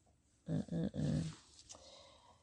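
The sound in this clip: A dog growls in three low, rough bursts in quick succession, loud against a near-silent background, followed by faint low noise and a brief fainter sound as the growling stops.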